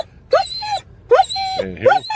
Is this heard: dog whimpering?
yes